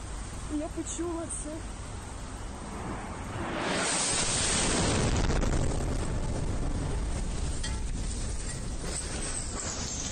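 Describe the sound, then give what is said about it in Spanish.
A missile strike explodes in a city street in Kyiv, a sudden broad roar of noise that swells partway through and stays loud and rumbling to the end over a hiss of background sound. “Así sonaba un misil que pillaba por sorpresa a una joven que se iba grabando por una calle de Kiev.”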